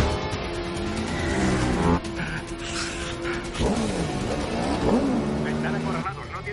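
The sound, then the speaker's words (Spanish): An Audi spins 180 degrees while a motorcycle chases it, with a revving engine whine that rises and falls in pitch and a brief tire squeal, all under a speaking voice. “El Audi frena en seco. Dos motos chocan contra él y saltan por los aires. El Audi gira 180 grados. La cuarta moto lo persigue.”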